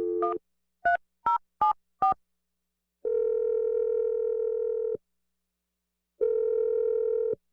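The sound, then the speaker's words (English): Telephone keypad dialing: five short tones in quick succession, then two long, steady tones separated by a pause of silence. “I'm about to dial Hope's number, and we'll see if we can get you your second date update.”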